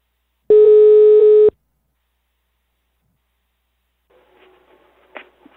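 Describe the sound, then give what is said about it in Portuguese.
A telephone ringing tone on an outgoing call: one steady, clear tone lasting about a second, followed by silence. A faint rustle comes near the end. “Eu vou ligar pra Gisalva.”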